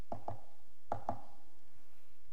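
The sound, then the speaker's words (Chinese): Soft knocks on a door: four light raps in two quick pairs, with a brief pause between the pairs, heard alone against near silence. “有一天有人轻轻地敲门”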